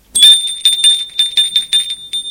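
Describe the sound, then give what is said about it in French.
A doorbell rings at a home's front door in the afternoon, giving a rapid series of bright, high-pitched metallic rings in quick succession. It is loud and alone, with a clear ringing tone. “Un après-midi, Gilles sonne chez les Lanteuil.”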